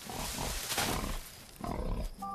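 Wild boar eating tomatoes: rough, snuffling munching and grunting noises in a steady run, with a brief dip in loudness near the middle before the chewing sounds pick up again.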